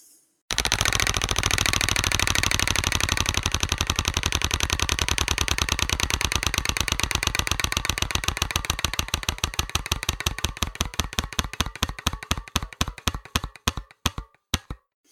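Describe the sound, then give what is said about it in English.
A prize wheel spins and clicks: a rapid, dense ratchet of clicks that gradually slows and spreads out over about fifteen seconds, ending in a few widely spaced clicks as it stops. “All right, so let's spin the wheel.”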